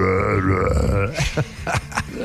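A long, loud, deep burp is forced out with effort, followed by a few short vocal sounds.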